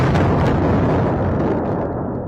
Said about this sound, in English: Israel unleashed a major bombardment in Lebanon, heard above the skies of Beirut.